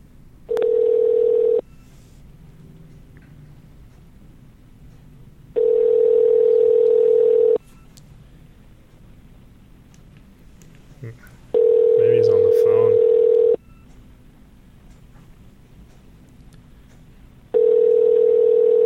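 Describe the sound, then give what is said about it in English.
Telephone ringing tone on an outgoing call: four steady electronic tones of roughly two seconds each, separated by longer quiet gaps over a low background hiss. “So I just texted him, hey, I'm calling. So here we go. 1, 2, 3.”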